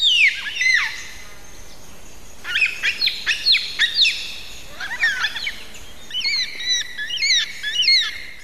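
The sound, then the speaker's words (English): Baudin's black cockatoo (long-billed black cockatoo) calling in southwest Western Australia: several bursts of high, wavering, squealing calls separated by short pauses over faint background. “This one today is Borden's Black Cockatoo, previously known as the Long-billed Black Cockatoo.”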